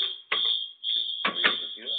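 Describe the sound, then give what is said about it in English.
A fire alarm sounds in a multi-floor building, a high, piercing electronic tone that holds steady with brief breaks while people talk over it. “What the hell is that noise? I don't know. The fuck is that? Oh, it's a fire alarm.”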